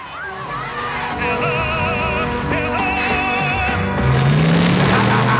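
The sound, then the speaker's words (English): An armored battle car approaches and accelerates, its engine roaring within a dense, layered mix of wavering tones. Near the end the engine growl swells louder and climbs in pitch. “He looks up to see the armored car approaching.”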